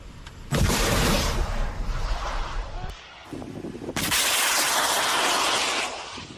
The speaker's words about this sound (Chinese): 是由陆军联兵584旅反甲排官兵单纲依序执行脱式 2A 飞弹监测射击以及脱式 2B 飞弹的验证射击。 发射了